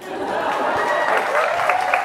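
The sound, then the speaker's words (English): Audience applause fills the whole stretch as a dense, steady wash of clapping that keeps an even level from start to finish. “That was an applause break.”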